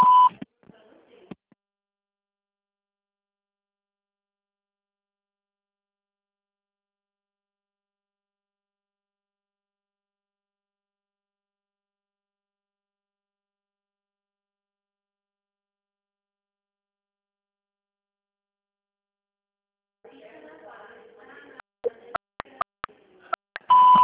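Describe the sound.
A telephone signal tone beeps briefly at the start, then a long silence follows before faint clicks and another short tone at the end.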